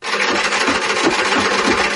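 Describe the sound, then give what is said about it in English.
A sewing machine runs while machine stitching, giving a continuous, loud whirring drone with rapid, rhythmic pulses underneath and no pauses. “The sewing machine. Side view. Yes, machine stitching.”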